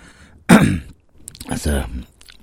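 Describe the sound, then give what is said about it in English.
A few harsh coughs and throat-clearing bursts from someone with a bit of roast potato stuck in their throat after bad chewing. The first burst is sudden and loud, and rougher, voiced throat noises follow. “I've just eaten one of the spare roast potatoes. So I've got a little bit stuck in my throat, so don't worry. I'm not coughing for anything other than bad chewing.”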